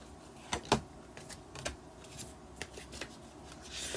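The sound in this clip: Oracle cards being shuffled and drawn for a fortune-telling reading, quiet soft riffles and papery flicks, with a couple of sharper snaps early on followed by lighter scattered rustles.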